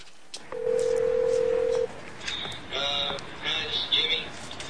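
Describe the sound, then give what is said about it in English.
A telephone at a truck stop: a steady, pure dial tone is followed by several short tones of dialing, each a brief electronic beep at moderate loudness, separated by short gaps. “At the truck stop, Louise is on the phone.”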